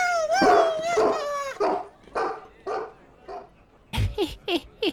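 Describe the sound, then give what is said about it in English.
A dog bursts out with a long, wavering howl that fades into whiny yelps and then breaks into a quick run of about four sharp, high barks, set in a rowdy scene by a king's table. “That's not a pony. That's my dog.”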